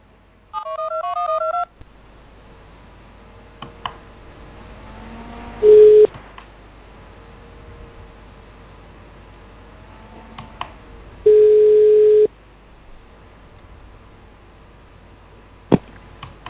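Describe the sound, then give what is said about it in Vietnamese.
Touch-tone beeps dial a telephone for a call: a quick run of keypad tones, then two long, steady ringing tones separated by a pause, with scattered sharp clicks on the line in between. “tôi gọi bằng phone cho dạ. anh à, cho anh cho chắc đi. Cho chắc dạ. Vâng vâng, tôi gọi bằng phone.”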